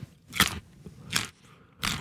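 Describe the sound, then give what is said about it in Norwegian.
Crunchy in-season Norwegian carrots being bitten, three crisp, sharp crunches spaced evenly apart, with faint quiet crackle in the gaps between bites. “Her er en lydprøve av Norske gullerøtter i sesong, utført av Johannes Høsflot Klæbo.”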